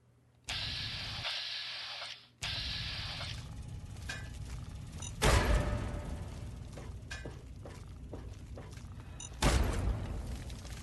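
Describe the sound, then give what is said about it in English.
Frag mines explode in a video game, with two heavy, booming blasts rising out of a steady hiss of game noise. “Let's, uh, let's see what a frag grenade does to him. Oh, actually, frag mine even better, because I think I'm, he's in a spot where I can lure him to me.”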